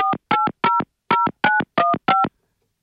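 A phone is dialed to call a radio listener: seven short dual-tone keypad beeps in a quick, even sequence with a slight pause after the third, followed by silence.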